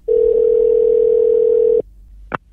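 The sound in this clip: A steady single-pitch telephone line tone hums for under two seconds while a shop is being called, then cuts off, followed by a brief faint click.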